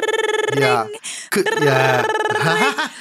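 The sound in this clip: A voice imitates a telephone ringing, producing two buzzy, trilled vocal bursts with a rapid fluttering pulse, separated by a brief gap.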